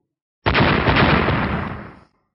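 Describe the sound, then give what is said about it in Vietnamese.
An explosion from magical lightning orbs bursting in a fantasy battle: a single loud blast with a sharp onset, followed by a rumbling roar that trails off over about a second and a half. “Hai tiếng nổ vang lên”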